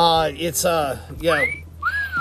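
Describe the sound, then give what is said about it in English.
Wolf whistles aimed at a man walking down the street. A voice comes first, then two bright whistles follow: a quick upward sweep and then a longer one that rises and slowly slides back down. “He gets a lot of whistles when walking down the street.”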